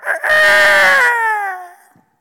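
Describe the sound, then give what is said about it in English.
A rooster crows once in a loud, drawn-out call lasting about two seconds. Its pitch sinks slowly toward the end before the call fades out. “some of you need that to wake up. The rooster crows.”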